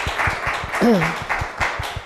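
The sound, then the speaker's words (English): Audience applause following a presentation at a talk event, rapid claps at an even density, with a brief voice rising over the clapping partway through. “Well, why don't we give Deanna another round of applause, please?”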